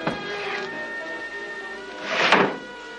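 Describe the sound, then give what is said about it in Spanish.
A wardrobe door is kicked open with a foot: a sharp thump at the start, then a louder, longer wooden thud and rattle a couple of seconds later. “Abre el armario con el pie y Átila lo registra.”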